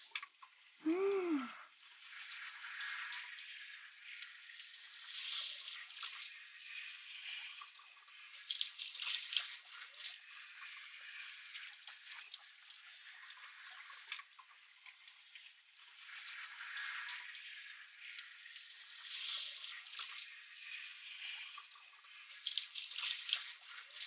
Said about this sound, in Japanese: 後頭部周辺にシャワーを当てて、そしてこうして髪をほぐしながら揉んでいって